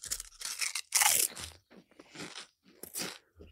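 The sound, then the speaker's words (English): Loud, crisp crunching of Pringles potato chips being bitten and chewed in a taste test: many brittle snaps and crackles in uneven bursts, with brief quiet gaps between bites. “And we've got a box of Pringles here. I should probably do the taste test.”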